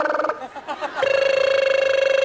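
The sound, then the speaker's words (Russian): A mobile phone rings with an electronic, warbling tone that pulses rapidly and steadily. It starts about a second in, after a brief voice and other sounds. “Это же моя мобила. Алло, кто это?”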